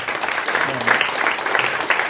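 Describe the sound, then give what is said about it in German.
An audience applauds after a talk, with steady, continuous clapping and a voice briefly audible over the noise. “Okay, dann bitte nochmal einen Applaus für Alexander Lohberg.”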